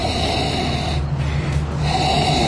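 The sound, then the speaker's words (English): Sharp sniffing inhalations with the nose down in a wine glass, a rushing breathy noise that thins briefly in the middle before resuming at full strength. “get your nose down into the wine glass. I mean, let's be serious about it. Let's get right down in there. And I want you to inhale several times, very sharp inhalations.”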